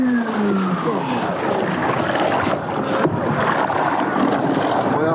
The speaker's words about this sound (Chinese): 水下机器人现在用它的这个动力呢，在拉着我前进。